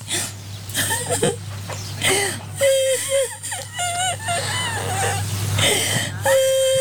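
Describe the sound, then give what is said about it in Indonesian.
A grandmother cries on Indonesian Independence Day with wavering, whimpering sobs and wails that rise and break off repeatedly, mixed with talking voices. “Kok Nyai nangis? Ini kan hari kemerdekaan Indonesia. Nyai jangan nangis dong”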